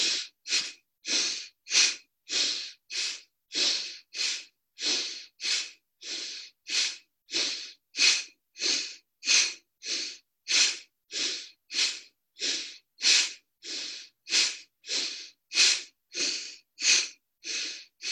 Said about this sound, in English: So let's just start. Inhale, exhale. And use your belly.